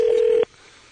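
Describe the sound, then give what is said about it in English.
A telephone keypad tone sounds while a number is being dialed: one loud, steady beep lasting under half a second, then cutting off abruptly into quiet. “Are we dialing? Yep. There we go.”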